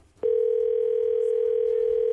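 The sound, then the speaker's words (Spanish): Telephone tone while a call is dialed: a steady, unbroken mid-pitched tone starts abruptly after a brief quiet moment and holds alone at an even level. “Marcando, pues no contesta.”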